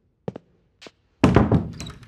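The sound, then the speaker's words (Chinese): A door is pulled shut behind someone entering: two soft, brief clicks, then a louder, heavy thunk with a rattling tail that carries to the end. “哈利关上身后的门时，斯内普冷若冰霜地说。”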